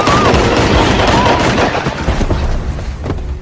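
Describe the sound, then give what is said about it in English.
Gunshot in a 21 Jump Street film scene: a loud, dense burst of gunfire noise, strongest at the start, that gradually tails off over a few seconds. “Oh, oh fuck, you shot him! Oh, God! Are you okay? You shot my partner, you motherfucker! I didn't mean to shoot you, I meant to shoot him!”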